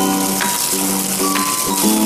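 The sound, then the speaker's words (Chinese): Wet squishing of gloved hands mixing marinated chicken pieces with seasoning and dry starch: a continuous moist rustle with a few louder squelches, steady in loudness, with a faint tonal hum underneath. “好，现在我戴上个手套，把这些调料呢，让这个鸡块呢给它匀一下，抓抓匀。”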